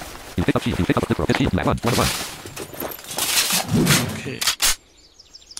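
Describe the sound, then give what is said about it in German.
Machine-gun fire in a video game rattles out in rapid bursts aimed at the player, loud and crackling at first. More scattered shots and game effects follow before the sound stops abruptly. “Und der schießt mit einem Maschinengewehr auf mich.”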